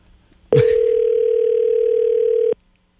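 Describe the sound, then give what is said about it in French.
A telephone dial tone while a call is placed: a short click, then a single steady, loud, unbroken tone holding for about two seconds before cutting off into silence. “On va l'appeler, là.”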